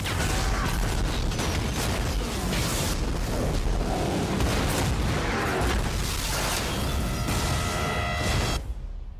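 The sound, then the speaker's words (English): A video game's explosions form a loud, dense barrage of rumbling blasts and crackling debris that roars continuously for several seconds, then cuts off abruptly near the end. “What you just heard there were a series of explosions.”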